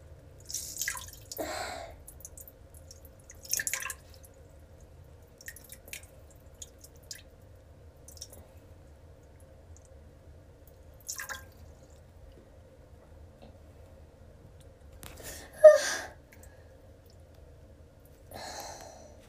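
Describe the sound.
Urine drips and trickles in sparse, faint bursts: a handful of brief wet splashes and drips separated by long quiet gaps over a low, constant hum.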